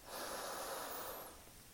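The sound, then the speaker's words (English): One deep breath drawn during a breathing exercise: a soft, airy rush of breath that swells quickly, holds, then tapers off, with no voice. “we will inhale wide, exhale tall, inhale wide,”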